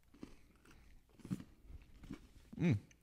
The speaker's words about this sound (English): We're going to eat the chocolate now. All right, I'm actually gonna eat it.